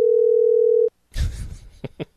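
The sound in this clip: A telephone dial tone after a call is hung up: one steady, continuous mid-pitched tone holds for just under a second, then cuts off abruptly, followed by a short burst of muffled noise and a couple of brief clicks.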